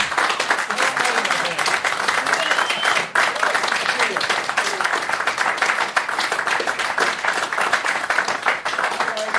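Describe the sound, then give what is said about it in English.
A crowd applauds the rock band Scorpions at a town hall event in New York City, with dense, steady clapping that continues at full strength throughout. “Give it up for Klaus and Matthias one more time, everybody.”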